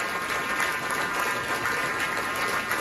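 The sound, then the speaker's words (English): Applause from guests at a San Francisco dinner event honoring President Xi, a fairly faint, steady rush of clapping that continues evenly without fading. “Still going on. Come on. Applause. Subside.”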